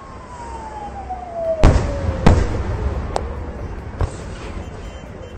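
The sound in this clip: Fireworks set off in Astana for a birthday celebration: four sharp bangs over a steady rumble, with a thin whistle-like tone sliding downward across the first half.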